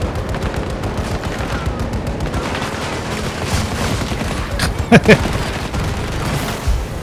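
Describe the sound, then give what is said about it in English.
Gunfire from a video game, a sustained stream of rapid shots with a couple of sharper, louder bangs near the end. “I'm shooting up.”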